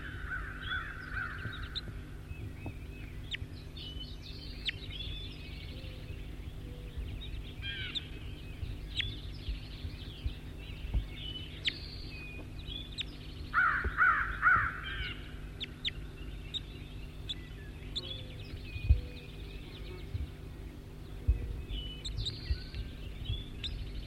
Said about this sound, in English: That was bird 5-9.